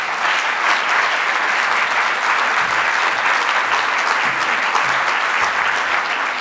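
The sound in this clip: An audience welcomes a visiting professor before a lecture with steady, dense applause, many hands clapping at an even, loud level throughout.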